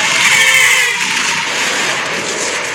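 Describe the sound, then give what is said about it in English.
Loud, steady rush of vehicle noise from a film scene in which a car swerves and nearly hits a truck. The level holds almost constant throughout, with a faint high whine early on. “As you can tell, they, like, yeah, the guy distracted driving. Again, why you shouldn't be having this conversation while somebody is hurting his driving. But anyways, they nearly hit a truck.”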